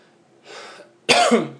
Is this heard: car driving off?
no